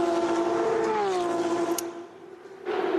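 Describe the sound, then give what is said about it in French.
Race cars accelerate on a track on the final lap with a loud, high, whining engine note. The note holds strong and steady, briefly weakens, then surges back to full volume. “Ah, dans le coup, ils ont pas mal accéléré parce qu'on les voit revenir sur le passage à Bassani.”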